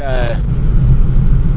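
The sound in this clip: A car drives along a road, its engine and tyres making a steady, loud, low rumble throughout.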